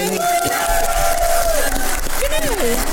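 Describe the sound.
An audience cheers and roars after being asked to give a listener a round of applause. Loud crowd shouts and whoops swell over the noise, with voices rising and falling across the burst.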